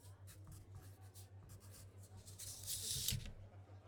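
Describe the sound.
Faint scratchy strokes of writing on paper as a name is spelled out. The soft rasps come in short bursts, growing brief and louder near the end, over a low steady hum.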